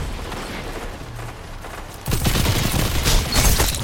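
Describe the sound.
Gunfire from a Destiny 2 Crucible multiplayer match: after a quieter stretch of game ambience, a loud, dense burst of rapid shots erupts and keeps rattling to the end.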